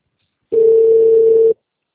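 Telephone dial tone after placing a call: a single steady, pure mid-pitched tone lasting about a second, heard alone and stopping abruptly.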